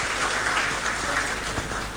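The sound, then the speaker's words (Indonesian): Audience applause welcomes a guest from BNSP at a meeting; many hands clap in a dense, continuous patter that holds steady and tapers slightly at the close. “kita beri aplaus dulu buat beliau dari BNSP ya.”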